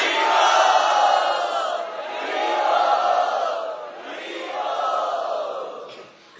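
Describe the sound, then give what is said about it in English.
A festival crowd loudly chants Hari Bol in three long, swelling calls, each rising to full volume and then tapering off. “Let us show our gratitude and offer our welcome to my dear God brother Sarvabhauma Prabhu by very loudly chanting Hari Bol.”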